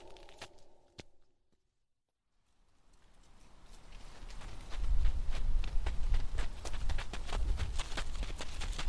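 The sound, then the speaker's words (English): Boys running footsteps: rapid pounding steps that rise out of silence into a dense, loud patter of footfalls with a low rumbling undertone. “Run, boys! Run! Corren!”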